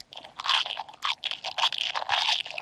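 Someone bites into and chews crispy French fries, making many loud, dry crunches in quick irregular bursts, with no talking.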